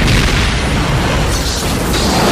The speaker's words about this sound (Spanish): ¡Crearemos una distracción! ¡Espera que lance este petardo infantil a la trinchera enemiga y...!